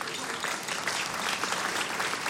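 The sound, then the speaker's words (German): Audience applause fills the whole stretch as a dense, steady wash of clapping, loud and even with no pauses and no voices over it. “Die müssen jetzt nicht jedes Mal klatschen, wenn sie was verstanden haben.”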